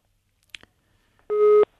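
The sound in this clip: A telephone busy signal after a dropped call: a couple of faint clicks, then one loud, steady, even-pitched tone that cuts off abruptly.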